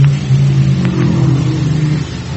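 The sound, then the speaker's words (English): Race car engine roaring on the track during a race: a loud, steady, droning mechanical roar that holds throughout with no voices. “there goes Cliff Regier driving a beautiful, beautiful car.”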